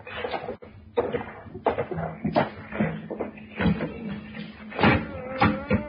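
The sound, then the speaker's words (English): Trapdoor in a floor being opened onto a cellar stairway: a quiet, irregular run of many wooden knocks, thumps, scrapes and creaks over several seconds, with no steady rhythm. “Hey, it's an opening in the floor. This trapdoor leads to the cellar.”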